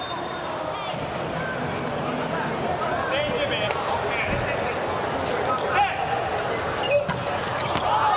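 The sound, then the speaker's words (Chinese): Table tennis ball taps from Yang Baoqi's serve in a Japan vs China match, a serve that wins the point outright; a few sharp clicks sit under commentator talk and a murmuring crowd. “杨宝奇的发球，”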